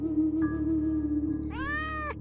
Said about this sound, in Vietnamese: Bỗng con mèo từ đâu chạy lại, kêu lên meo meo, cho cào cào xuống đất như gặp con mồi.